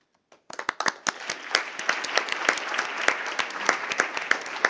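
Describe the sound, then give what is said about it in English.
Applause at a meeting elects Bureau members by acclamation. Many hands clap in quick, uneven bursts that start suddenly and hold at a steady, moderate level. “I would like to kindly request that the Bureau members are elected by acclamation as well.”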